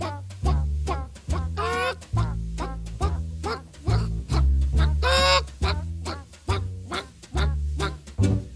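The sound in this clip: A jazz performance mimics hens clucking in a henhouse, with choppy, squawk-like bursts repeated in a bouncing rhythm over a steady, deep pulsing bass line throughout.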